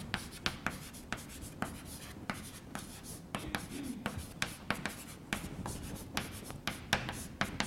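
Writing on a board during a physics lecture: many quick scratchy strokes and taps in an irregular, busy rhythm. They go on steadily throughout, with no talk over them.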